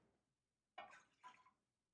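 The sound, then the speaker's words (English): Half a cup of water is poured into a pot for steaming shrimp, a brief splashing pour in two short bursts, fairly faint and alone. “So let's steam some shrimp. We're going to start off with a half a cup of water,”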